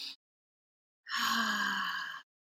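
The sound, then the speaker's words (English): A single deep, airy breath during a guided breathing exercise, lasting about a second and fairly loud, set against near silence after a brief breathy sound at the start. “And so let's take a deep breath together.”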